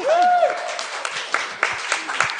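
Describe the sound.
An audience breaks into applause, heard as a spread of scattered claps beneath a talking voice.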